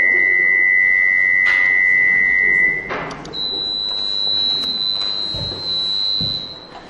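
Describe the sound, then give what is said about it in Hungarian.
Amplitude-modulated sine tones play one after another: a steady, pure high tone holds for almost three seconds, then after a brief break a second, even higher and more piercing tone sustains to the end, over faint background hiss. “Van egy 500 Hz-es 77, 1000 Hz-es 85, 2000 Hz-es 93-as, és egy 4000 Hz-es 101 Hz-el modulálva. Hallgassák meg ezeket.”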